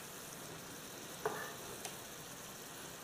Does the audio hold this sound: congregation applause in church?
no